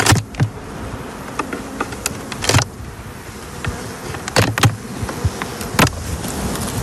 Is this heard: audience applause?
no